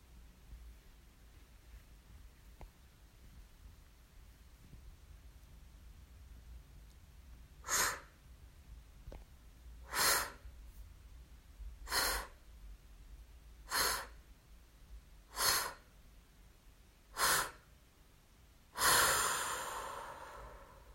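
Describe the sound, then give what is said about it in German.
Seven forceful exhaling breaths follow a held breath in a breathing exercise. Each is a sharp, airy rush, spaced evenly a couple of seconds apart against quiet background hiss, and the last is the longest and loudest. “Halte die Luft an, so lange wie du kannst. Und atme dann in 7 kraftvollen Atemzügen die ganze Luft wieder ab.”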